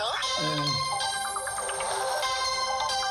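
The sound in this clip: A telephone rings with incoming calls, sounding a bright electronic ringtone with a repeating melodic chime pattern that runs steadily through the whole moment.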